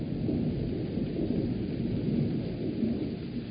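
Steady rain falls on a cold, sunless day in Kampong Speu province, Cambodia, making a continuous, dense hiss with a low rumbling body that stays even throughout, with no voices.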